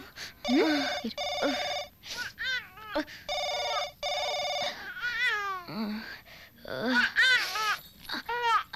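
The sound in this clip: A telephone rings in two long, steady electronic bursts, while a hurt child cries in wavering wails between and after the rings.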